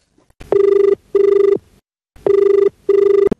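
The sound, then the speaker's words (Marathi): A telephone rings for an incoming call in two double rings: two short, steady bell tones, a pause, then two more. The rings are loud and clear, with no voices. “पाहूया पहिला phone कोणाचा आहे.”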